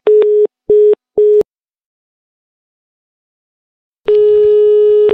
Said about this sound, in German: Ich lege jetzt auf.